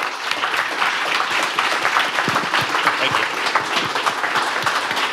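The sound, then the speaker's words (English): An audience applauds guests with dense, steady clapping that holds at an even, loud level throughout, with no voices standing out. “Can we get a round of applause for all of our guests?”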